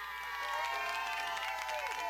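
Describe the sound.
Faint cheering and applause from a crowd for two prize-draw winners, a steady mix of clapping and raised voices with shouting running through it.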